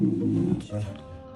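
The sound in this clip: A lion cub roars in pain while receiving acupuncture, a low, rough growl that dies away and then returns as a shorter second growl.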